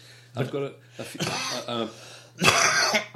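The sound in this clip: A man clears his throat a few times in rough, rasping bursts, each harsh and fairly loud, with short gaps between them.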